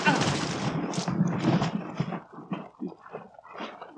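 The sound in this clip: A gunshot in a radio drama, a sharp loud blast with a decaying tail, surrounded by tense overlapping voices.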